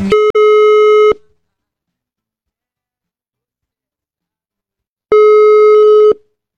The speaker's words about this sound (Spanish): A ver si lo tenemos por acá, vamos a hacer la llamada por teléfono. A nosotros nos gusta llamarlo en vivo siempre, ¿eh? A ver. Vamos a ver si estamos. Lo estamos llamando.